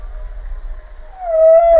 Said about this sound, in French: Réponse de la baleine à bosse.